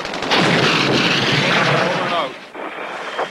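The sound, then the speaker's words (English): Artillery shells explode in a war drama, a heavy, rumbling barrage that roars continuously for about two seconds, then drops off sharply before lighter blasts rumble on. “They're dropping artillery all over the place. That's what's happening.”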